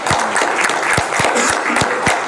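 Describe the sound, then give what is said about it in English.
Audience applause at a gathering: brisk, crisp clapping in which several sharp individual hand claps stand out over a busy, steady bed of clapping that stays loud throughout. “Let's all give some applause for ourselves.”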